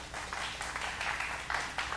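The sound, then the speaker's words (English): An audience in church claps its hands to the Lord. The clapping is soft and uneven, swelling in several short bursts over a low, steady background. “In Jesus' name, let's clap our hands to the Lord.”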